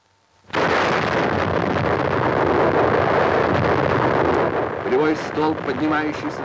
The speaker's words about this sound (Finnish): Бомба приближается к точке взрыва. Высота 4000 метров. Осталось три секунды. Две, одна,